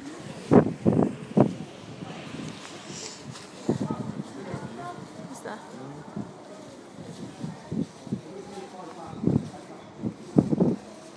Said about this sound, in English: Sorry about the wind, by the way.